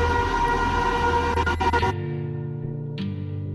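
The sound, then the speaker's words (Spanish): A subway train arriving at a station: a loud, broad rumble with a steady tonal whine for about two seconds, then a sudden drop to a quieter hum, followed by a brief high hiss near the end. “se quedan callados hasta que llega el metro”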